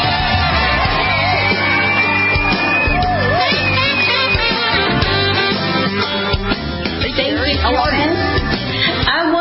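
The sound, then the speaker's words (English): Audience cheering, yelling and whooping to welcome a guest, a loud, dense roar of many voices that holds steady throughout. “Ladies and gentlemen, put your hands together and welcome Carrie Sheffield.”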